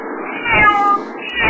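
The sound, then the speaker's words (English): A female house cat gives a loud, drawn-out, whiny meow that swells in the middle and rises again at the end, heard alone without talk. “Where does she get that brattiness from? Oh, wait, she's my cat.”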